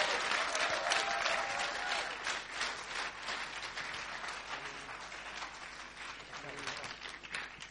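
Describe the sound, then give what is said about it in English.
Applause from a church audience welcoming a visiting pastor at a Mother's Day morning service: dense, steady clapping throughout that eases slightly toward the end. “Won't you give him a great Canterbury welcome to Pastor Joey Bonifacio.”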